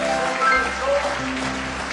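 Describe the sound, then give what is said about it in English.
An audience claps in praise during a church service, with dense, steady hand clapping running throughout, mixed with sustained musical tones underneath. “Give me one more hand clap of praise tonight.”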